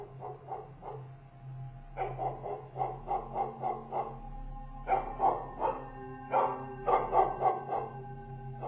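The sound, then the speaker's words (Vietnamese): A dog barks loudly and agitatedly with its hackles raised outside the last room of a building. The sharp barks come in many rapid bursts with brief pauses between the volleys. “Cho đến khi đến căn phòng cuối cùng này, thì bỗng nhiên con chó lại dựng lông bờm lên mà sủa inh ỏi.”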